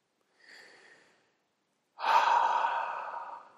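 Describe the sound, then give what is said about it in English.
A deep cleansing breath taken with eyes closed: a soft, short inhale, a pause, then a much louder, long breathy exhale that slowly fades. “Begin by closing your eyes and take a deep cleansing breath.”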